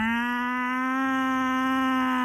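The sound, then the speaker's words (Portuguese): A person imitates a cow's moo to send cows away, one long steady, low, drawn-out voiced tone that holds its pitch without a break. “Atenção, isto não é uma vaca, isto é uma pessoa. Impressionante. Para elas irem embora. Ok, há vários mugidos, este é um mugido de base.”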